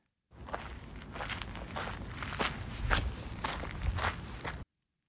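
Light footsteps crunching along a gravel path in a steady, even walking rhythm, quiet and heard alone for about four seconds.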